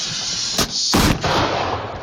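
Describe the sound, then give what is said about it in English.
Fireworks lit with a lighter go off in two sharp bangs, a short crack and then a longer, louder burst, over a steady hissing background, with no talk. “I should not be lighting these fireworks with my lighter.”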